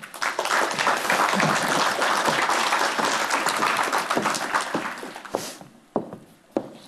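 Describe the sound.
An audience claps to welcome two guests onto the stage at a live HR talk event. Dense, steady clapping lasts about five seconds, then thins out to a few scattered claps.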